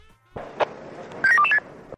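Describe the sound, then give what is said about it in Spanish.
Telephone dialling tones as a call is placed: one short beep, then a quick burst of several stepped keypad tones at varying pitches, over a low hum. “A ver, seguimos, probamos otra vez la llamada.”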